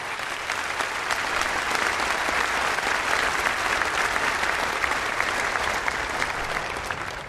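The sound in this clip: Warm audience applause welcomes a preacher to the pulpit, a dense, steady patter of many hands clapping that holds evenly for the whole stretch.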